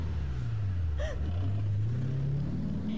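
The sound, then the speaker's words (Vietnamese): Low engine hum of a car speeding off at night, a continuous rumble that dips briefly and then climbs steadily in pitch as it accelerates. “Ba người hối hả ra xe. Chiếc xe vụt lao đi trong màn đêm.”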